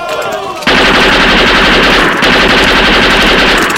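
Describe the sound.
Machine-gun fire bursts in after a short quieter opening, a loud, dense, rapid rattle of shots that continues unbroken to the end, with no voices heard.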